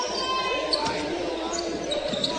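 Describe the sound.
A basketball is dribbled up the court against a full-court press during a school game, with quick bounces under voices and crowd noise.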